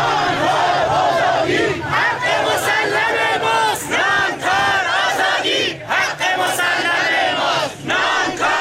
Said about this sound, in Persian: حالا صدای شعار رو میشنویم.